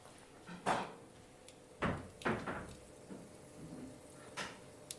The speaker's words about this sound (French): Là, je suis en train de couper les tranches.